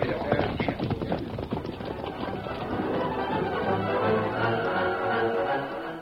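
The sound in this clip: Horses Silver and Scout gallop off in a radio western, a fast, loud clip-clop of hooves that carries through the scene.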